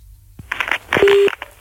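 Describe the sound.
Telephone dialing to call someone back: a few short beeps followed by one steady held tone, brief and moderately loud.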